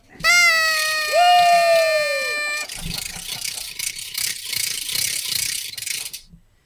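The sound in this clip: Party noisemakers at a party with hats and cake: a loud, buzzy horn blast with a second overlapping tone lasts about two and a half seconds, then a rattling, ratchet-like clatter runs on to the end.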